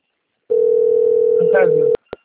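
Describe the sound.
A steady single-pitched telephone dial tone sounds while a call is being placed. It holds loudly for about a second and a half, a brief voice overlaps near its end, and then it cuts off with a sharp click followed by a second click.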